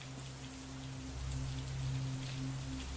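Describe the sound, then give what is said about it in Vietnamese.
Heavy rain pouring down in a storm, a dense, even hiss that holds steady throughout and swells slightly partway through, with a low constant hum beneath and no voices. “Nhanh lắm, mưa đổ rào rào, lẫn trong mưa và tiếng sấm sét đì đùng.”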